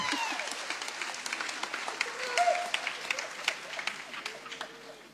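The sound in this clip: A church audience applauding the men's association in a cathedral: many individual claps, sharp and fairly faint, in a loose, uneven patter with occasional louder claps standing out.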